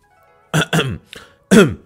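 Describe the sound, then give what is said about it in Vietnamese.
A few short, dry coughs from a carpenter, given as a warning, come as abrupt, harsh bursts separated by brief silences. “Đột nhiên thợ mộc ho khan nhắc nhở.”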